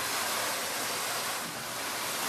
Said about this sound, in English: He removes the barnacles from the very much live crabs. We rinse them.